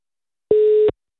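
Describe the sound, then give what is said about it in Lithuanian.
A single steady telephone tone from an outgoing call: one clean, mid-pitched beep lasting under half a second, alone in silence. “skambinsime pasveikinti Renatą su gimimo diena.”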